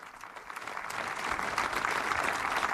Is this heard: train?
no